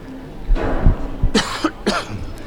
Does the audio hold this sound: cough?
yes